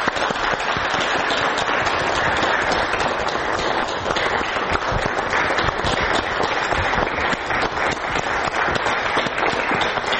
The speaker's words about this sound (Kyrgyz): анда кол чабалар менен тосуп алсак.